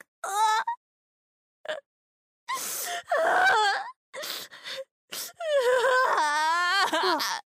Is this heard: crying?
yes